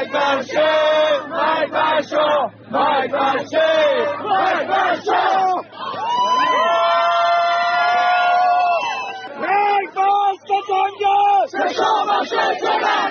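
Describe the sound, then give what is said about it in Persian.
A crowd of MEK supporters chants slogans at a rally in loud, rhythmic bursts of massed voices, with a long sustained collective shout in the middle before the short chanted phrases resume. “مانند تجمعات وابسته به اقلیت‌های قومی، گروه‌های سیاسی چپ و یا مانند این صدای هواداران سازمان مجاهدین خلق.”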